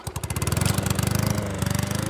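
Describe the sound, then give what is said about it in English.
A push lawn mower runs across a big yard beside a white ranch home in a Kentucky holler, its engine a loud, steady, pulsing drone throughout. “pushes a lawnmower in front of his white ranch home in a holler”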